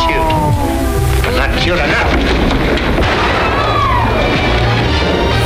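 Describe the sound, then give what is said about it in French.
A loud radio show segment jingle plays, dense and continuous, with booming, rumbling effects and a voice mixed in. “Je te mets ton jingle là.”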